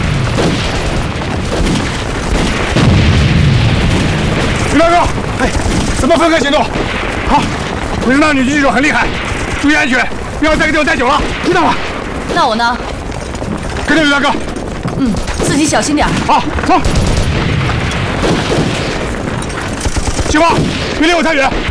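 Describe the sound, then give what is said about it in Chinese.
Loud, continuous machine-gun fire in a wartime battle, with dense rapid bursts and booming impacts throughout. Voices can be heard among the gunfire. “四挺机枪由你负责。”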